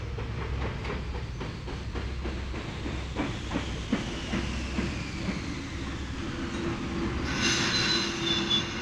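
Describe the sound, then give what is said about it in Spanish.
A steam locomotive braking hard into a station as its wagons creak and rattle: a low rumble with rhythmic clacks and a thin metallic squeal, then a burst of hissing steam near the end. “Nubes de vapor salieron de la locomotora cuando frenó de golpe en la estación, pero salvo por los crujidos y traqueteo de los vagones que seguían el movimiento del tren,”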